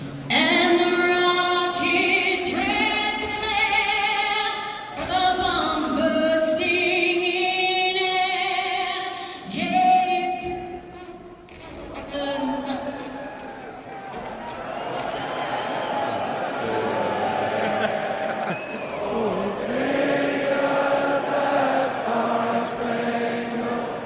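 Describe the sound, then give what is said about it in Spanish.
Crowd at a sporting event singing the US national anthem together after a technical failure cuts the performance: many voices in loose unison holding long sung notes, rising and falling through the melody. “quiero poner nada más lo que sucede cuando van a interpretar el himno nacional de Estados Unidos y empieza esa falla técnica, la reacción del público.”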